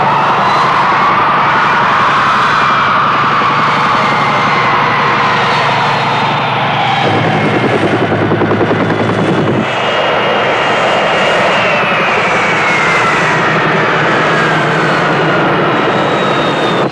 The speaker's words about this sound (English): The Egyptian civil aircraft is touching down now.